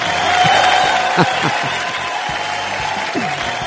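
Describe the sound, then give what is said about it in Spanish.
A euphoric audience cheers and applauds, a dense wash of clapping that swells early and then carries on steadily while a man talks excitedly over it. “Eufórico el público, es tremendo como vino.”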